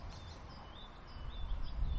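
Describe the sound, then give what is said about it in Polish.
Small birds chirp faintly in repeated short, high calls over a steady low rumble that slowly grows louder. “ptaszki, proszę, nie przeszkadzajcie”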